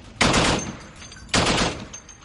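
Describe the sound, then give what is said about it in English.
Two heavy gun blasts from a US Navy destroyer opening fire during a naval exercise, each a loud sharp boom that trails off in a long rumbling decay, the shots about a second apart. “On board the USS Ross, American sailors opened fire.”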